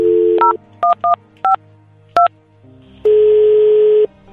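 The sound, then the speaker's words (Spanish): Telephone keypad tones place a call. A dial tone gives way to five short, two-pitched key beeps at uneven intervals, then a single steady ringing tone lasts about a second. “le voy a llamar a la señora a ver si me contesta”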